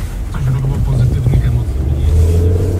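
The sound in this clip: A car driving toward an aircraft hangar, its engine giving a low, steady hum with slight wavering in pitch, moderately loud throughout.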